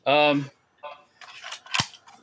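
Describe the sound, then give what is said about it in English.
One sharp mechanical click as a magazine is pulled from an AR-180-style rifle, heard between bursts of a man's talk. “I better take this magazine out because it had something in it.”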